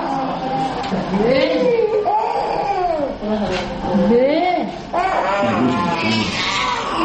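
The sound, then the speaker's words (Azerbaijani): Infants wailing at a medical centre where small children receive drip blood transfusions: a loud, continuous run of high, arching cries that rise and fall in pitch, one strained wail after another with only brief breaks for breath. “Simiya mərkəzində ancaq körpələr belə yanğılı ağlayırlar. Bir az böyüklər artıq öyrəşiblər.”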